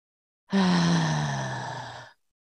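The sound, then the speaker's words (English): A single loud, voiced exhale like a deep sigh during a releasing yoga sequence, a low hum that slides gently downward in pitch and tapers off over about a second and a half, heard alone with no talk. “I just want you to take 3 loud exhales now.”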